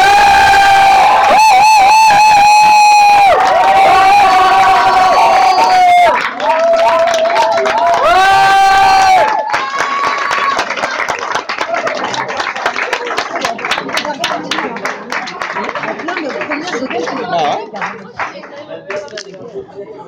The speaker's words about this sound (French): il faut vraiment l'acclamer très fort pour qu'elle vienne chanter